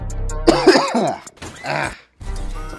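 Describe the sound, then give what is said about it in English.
A person coughs and clears their throat, several harsh, rasping bursts followed by a brief silence and another gravelly clearing. “I got something in my throat, dude.”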